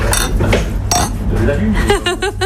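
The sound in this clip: Glasses of sparkling water clink together in a toast at a water bar in Bordeaux. A few bright, ringing clinks stand out, and people then talk over a steady low hum.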